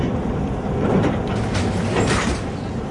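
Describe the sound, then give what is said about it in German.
Suitcases ride past on a moving baggage conveyor belt at Frankfurt Airport: a continuous mechanical rumble and hum with faint rattles and knocks, swelling slightly at times and steady throughout, with no voices. “Ein Koffer nach dem anderen fährt langsam auf dem Gepäckband vorbei.”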